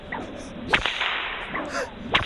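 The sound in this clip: A whip worked in a cattleman's crack pattern: two sharp, loud cracks, each preceded by a swishing whoosh of the lash moving through the air, in an even, repeating rhythm.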